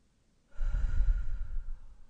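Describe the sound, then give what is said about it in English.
A single slow, deep breath is drawn in, a soft airy rush that rises quickly and holds steady for over a second before easing off. No talk is heard. “Inhale. Exhale. Inhale.”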